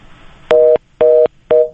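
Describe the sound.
Telephone busy tone after a call was cut off: three short, even beeps at a steady rhythm, each a clear mid-pitched double tone, heard alone over faint background hiss.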